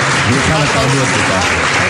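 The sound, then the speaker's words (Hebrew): Audience applause inserted as an effect into a comedy sketch: a dense, steady wash of clapping that holds at an even level for the whole moment, with voices mixed in underneath. “פה אנחנו נכניס מחיאות כפיים של קהל במקום אחר.”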